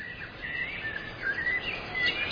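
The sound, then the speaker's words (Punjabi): Birds chirping outside a video production studio, faint high twitters and short tweets scattered over a soft steady hiss, with no talk. “Background ਤੇ ਤੁਸੀਂ ਆ ਚਿੜੀਆਂ ਦੀ ਜਿਹੜੀ ਆਵਾਜ਼ ਆ, ਸੁਣ ਰਹੇ ਹੋਵੋਗੇ, ਇੰਜੋਏ ਕਰ ਰਹੇ ਹੋਵੋਗੇ।”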